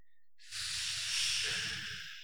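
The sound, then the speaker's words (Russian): Air hissing out through clenched teeth held in a smile, a steady breathy hiss of about two seconds that swells slightly in the middle and tapers off, with a soft low rumble of breath beneath it. “Вот сейчас мы открываем как будто в улыбочку рот, зубы при этом сомкнуты. Это называется заборчик. И выдыхаем заборчик.”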